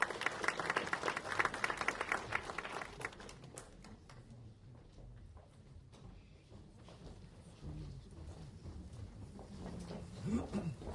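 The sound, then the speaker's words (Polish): Audience applause at an award ceremony for tourism merit badges: a dense burst of clapping that thins after a few seconds into lighter, scattered claps and a low background rumble, quietly recorded. “Jeszcze raz wielkie brawa, drodzy Państwo.”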